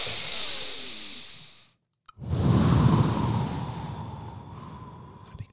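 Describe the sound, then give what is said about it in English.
A person takes deep, airy breaths: one long breath, a brief silent pause, then a second, louder and heavier breath that slowly fades, with no other sounds. “Breathe, bro. Take breath. Inhale.”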